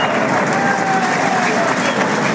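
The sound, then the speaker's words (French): Crowd applause in a bullring for the trumpeters, dense and continuous clapping mixed with crowd noise that holds loud and even throughout. “Applaudissements pour les Clarines.”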